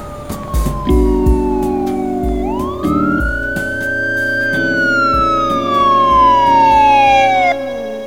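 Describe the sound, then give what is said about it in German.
A police car siren wails loud and steady, its pitch gliding down, then rising in one long sweep and falling away again, over a low steady backing with no talk. “Sie sollten mich vorwarnen, ehe Sie mich mit einem Streifenwagen in Ihr Büro bringen lassen, Detective Cooper.”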